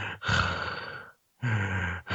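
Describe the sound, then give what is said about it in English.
A voice imitates someone's loud, congested sinus breathing while watching a movie: two heavy, raspy breaths, each roughly a second long, separated by a short silent pause. “he's got something going on with his sinuses and the way he breathes. So he'll be sitting there and all of a sudden he's getting really into the movie and his breathing suddenly just goes.”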